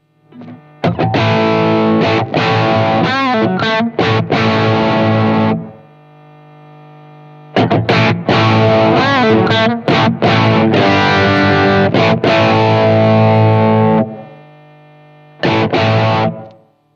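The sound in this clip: Heavily distorted instrument playing through an audio effects unit with power amp drive engaged. Two long, loud, gritty passages of chords and picked notes are separated by a steady low hum, then a short final burst follows.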